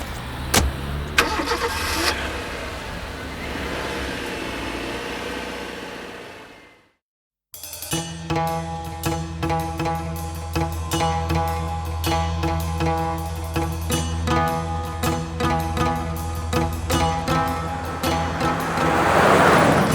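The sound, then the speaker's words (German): The engine of a large dark limousine starts and revs up as the car speeds away. A rough burst of engine noise breaks off into a brief silence, then a loud droning roar with a steady tone takes over and swells toward the end. “Mit hoher Geschwindigkeit rast die große dunkle Limousine”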